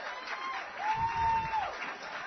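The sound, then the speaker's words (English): Applause from an audience of challengers at a Healthiest You Challenge event at the UNC Wellness Center: a steady, fairly quiet wash of clapping that swells slightly in the middle. “Give yourselves another big round of applause.”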